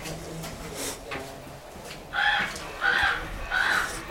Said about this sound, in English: We figured out that the raven is attracted and used by light. Aha. Uh-huh. Aha. I'm just seeing how far away I can set that raven off without going near it.